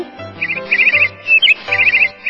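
A sparrow chirps in a few quick bursts of high, rapid trilled tweets with short gaps between them, set over faint low sustained tones.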